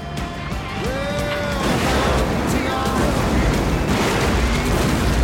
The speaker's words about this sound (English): Orange liquid erupts out of the ground with the earth.